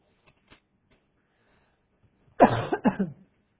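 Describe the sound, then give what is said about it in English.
A short fit of coughing from a person, a few harsh, throaty coughs in quick succession after near silence, moderately loud and heard alone. “told you I'd probably start coughing.”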